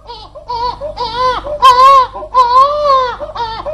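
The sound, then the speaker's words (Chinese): Wailing cries of a small child in a Shanghai opera scene: a string of high, tonal, rising and falling sobs that come in bursts, some louder and strained, with no words spoken. “咦，不对劲呢，这好像是小孩子在哭嘞。”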